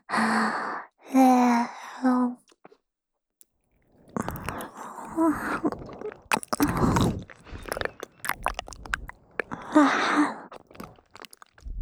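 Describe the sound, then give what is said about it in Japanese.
Close, wet licking and mouth sounds in an ear-licking style: soft voiced sighs first, then a long run of smacking clicks, slurps and breathy noises. “舐めちゃおうかな。いただきます”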